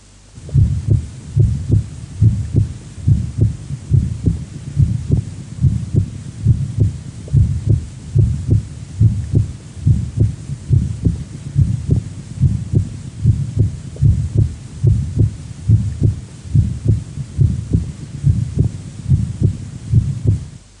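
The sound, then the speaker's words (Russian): A heartbeat carries a short, soft functional systolic murmur heard at the apex, from a patient with subvalvular mitral regurgitation. Many low, regular thudding beats repeat steadily with a faint whoosh between them, and there are no voices. “прослушайте короткий и мягкий функциональный систолический шум на верхушке у пациента с подклапанной митральной недостаточностью”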